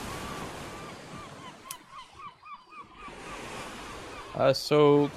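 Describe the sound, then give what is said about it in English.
Stormy ocean surf rushes and churns steadily, a setting where large shapes leap up and crash back into the water. A few tonal honking calls rise over the waves midway, and a loud harmonic blast stands out near the end. “in the direction of where the storms are coming from, there are sort of big shapes that are leaping up out of the water and then crashing down.”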